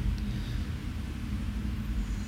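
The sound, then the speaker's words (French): Street traffic at Mabillon in Paris on a rainy May morning in 1978, with traffic flowing freely: a continuous low rumble under a steady hiss, with no distinct vehicle passes standing out. “Le temps est pluvieux.”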